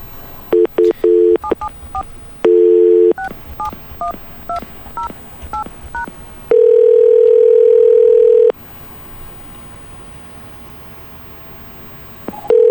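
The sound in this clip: Touch-tone dialing of a phone number on a line into a studio: quick groups of short beeps, then a long steady ringing tone, quiet line noise, and another tone at the end.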